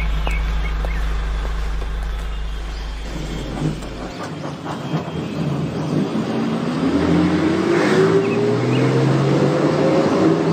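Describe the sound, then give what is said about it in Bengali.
A bus arrives on a crowded festival day. Its engine begins as a low, heavy rumble, then gives way to a climbing whine as the motor revs and the vehicle pulls in. “আরে বাসও এসে গেছে”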